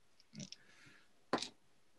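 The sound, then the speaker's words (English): Dice clatter in a Savage Worlds Deadlands tabletop role-playing game, with two short, faint bursts of rattling clicks separated by a pause. “Roll your dice.”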